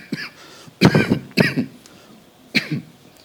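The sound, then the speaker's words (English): A preacher with a lingering cough coughs during a sermon: three hard, throaty coughs at uneven intervals, each breaking into a quick double burst, with a faint throat sound before the first. “sorry, that cough is still lingering, even though I'm on multiple medications for it.”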